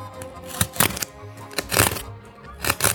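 A blade slits open a sticker seal with crisp, papery crackles and scratchy tearing, coming in a few short bursts separated by quieter pauses.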